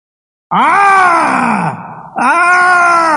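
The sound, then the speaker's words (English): A voice imitates a suffering child groaning: a loud, strained, drawn-out moan that sinks lower, breaks off briefly, then returns as a second sustained groan. “That little child is suffering, groaning.”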